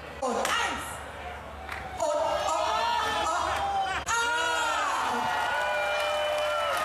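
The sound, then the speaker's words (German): A sharp mallet strike taps a keg of Kölsch beer at the traditional barrel-tapping that opens Pützchens Markt. A crowd cheers and whoops loudly around it, with voices throughout. “Aber wirklich, ein gezielter Schlag und das Kölsch sprudelte schon so aus dem Fass raus.”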